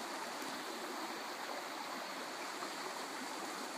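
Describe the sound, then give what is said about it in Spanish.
A stream of water flows with a steady, continuous rushing and burbling, even in level throughout and with no voices. “Permítete disfrutar el sonido armonioso del agua recorriendo la tierra.”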